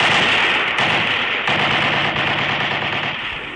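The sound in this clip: Heavy machine-gun fire in a battle, with Red Army gunners aiming at the muzzle flashes of enemy firing positions: a loud, dense, unbroken rattle of rapid gunfire that fades slightly toward the end, with no voices.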